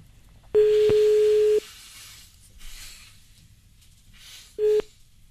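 Telephone line tone while calling someone back: a steady mid-pitched beep of about a second, a few seconds of faint background noise, then a second, much shorter beep.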